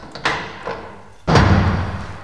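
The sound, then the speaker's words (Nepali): A door slams shut with a heavy, loud thud, preceded by two lighter bumps; no voices. “तर जब तिनीहरू तेल किन्नका लागि बाहिर गए, त्यस बेला ढोका बन्द भयो।”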